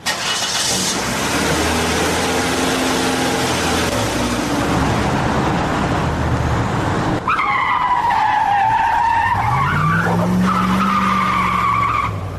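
A car driven fast, its engine roaring steadily, then loud screeching tire skids with wavering squeals through the second half, alongside continued engine noise.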